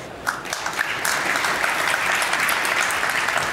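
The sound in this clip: An audience claps steadily and warmly to welcome a guest onto a stage for a talk on AI in healthcare and pharma. The applause stays even and full throughout, with no speech over it.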